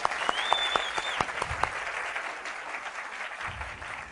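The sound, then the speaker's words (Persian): An audience at a motivational talk claps for themselves, a fairly quiet wash of hand claps with a few sharper individual claps early on, fading gradually. “یه دست مرتب برای خودتون بزنید”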